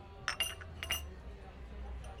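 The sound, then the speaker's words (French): A small spoon stirring coffee in a cup gives faint, bright clinks in two quick pairs, then only a low steady background remains. “Remuez votre café avec une petite cuillère sous votre nez.”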